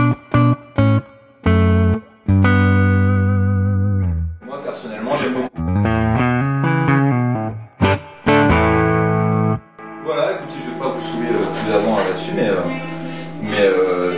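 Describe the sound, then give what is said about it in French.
Electric guitar through an amp with fuzz distortion, playing single notes and sustained, buzzy chords separated by brief pauses, then moving into a denser, busier passage near the end. “pas trop de disto, alors faut y aller à la fuzz dedans”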